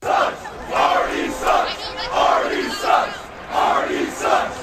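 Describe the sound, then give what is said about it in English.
Baseball crowd chanting an insult at an opposing pitcher, a short phrase repeated many times in a steady rhythm by many loud voices. “Artie sucks. You can hear it right through the TV.”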